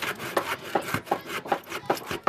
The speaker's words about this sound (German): Ich säge die Bretter ab, damit es da gerade ist.